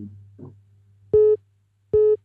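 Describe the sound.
A telephone sounds two identical steady electronic tones, each about a quarter second long and separated by a short gap, over a faint low hum.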